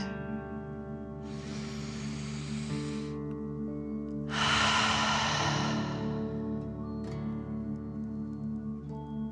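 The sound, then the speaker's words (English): A slow, deep breath in and then out: two long, airy rushes of air, the second louder and longer, over a soft, steady tonal drone. “breathe out, pretending fire is coming out of your mouth. Ready? Breathe in and out.”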